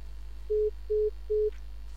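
A telephone busy tone follows a caller's dropped line: three short, evenly spaced beeps at a steady mid pitch over a faint low hum.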